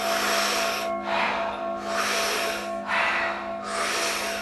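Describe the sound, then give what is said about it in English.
Rhythmic breathwork: big, powerful inhales drawn in through a rounded mouth alternate with soft exhales, forming a few loud, breathy surges in a steady cycle over a faint sustained tone. “about 40 powerful breaths into the body through a round mouth. And when you exhale, it's a soft exhale. It's a big, powerful inhale, soft exhale. We do it rhythmically, we do it together. It sounds like this.”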